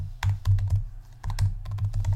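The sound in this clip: Someone types a name on a computer keyboard: a brisk clatter of keystrokes in two bursts with a short pause between them, over a low steady hum.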